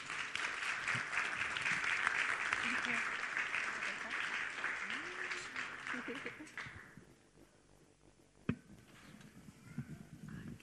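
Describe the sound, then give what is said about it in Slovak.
Audience applause welcoming guests: broad, dense clapping from a crowd that holds steady for about six seconds, then dies away into a quieter background with one sharp knock near the end. “Super, tak môžete ich privítať jedným veľkým potleskom.”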